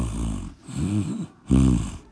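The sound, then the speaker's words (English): A yawn and snoring come as three low, rumbling, drawn-out breaths separated by short pauses, the last one loudest. “And then came a yawn and snoring.”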